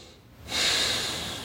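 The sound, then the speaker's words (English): A deep breath drawn in during a guided tapping exercise: a single long, airy inhale begins after a short quiet moment and holds steady to the end. “Big deep breath.”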